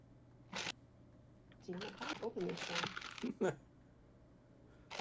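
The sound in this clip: A paper letter envelope being ripped open, with short sharp tearing bursts at the start and end and people talking in between.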